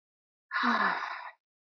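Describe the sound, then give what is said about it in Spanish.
A single deep meditation breath, heard as one soft, breathy exhale lasting under a second, faint and alone against silence. “un par de respiraciones profundas, intencionales, inhalando por la nariz, llevando el aire hasta el estómago y exhalando por la boca.”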